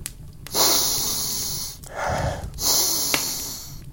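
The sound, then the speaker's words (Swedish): Deep, snorting sniffs from a giant drawing air through his large nostrils, performed by a human voice: a few long, noisy inhalations, loud and breathy, with short pauses between them. “Med sina stora näsborrar drog han in djupa andetag.”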